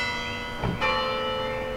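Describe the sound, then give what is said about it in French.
A church tower bell at Damigny strikes the half hour at half past four, a single faint stroke whose resonant hum lingers and slowly fades. “16h30 sonne au clocher de Damigny.”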